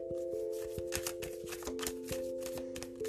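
Tarot cards being shuffled: quick, crisp riffles and flicks in an irregular run over a soft, steady tonal music bed.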